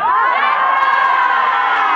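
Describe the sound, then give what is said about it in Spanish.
A feminist protest crowd in a Granada street shouts against sexist violence. Many raised voices merge into a loud, sustained, chant-like chorus that holds steady for the whole clip. “La plataforma 25 de noviembre y el movimiento feminista de Granada sale a las calles para gritar: ¡basta de violencia machista!”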